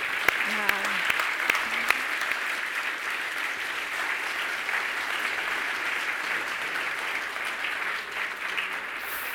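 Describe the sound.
An audience applauds after a talk, a dense, steady clatter of many hands clapping that holds at an even, fairly loud level throughout.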